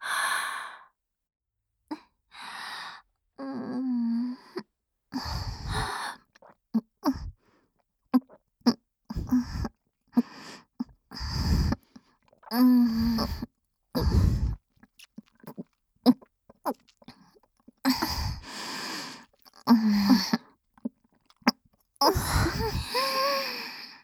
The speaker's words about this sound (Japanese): 左右からごっくんを聞かせてあげます。